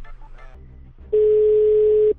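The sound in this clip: Telephone dial tone heard while calling back: one steady, loud, mid-pitched tone lasting about a second that starts and stops abruptly.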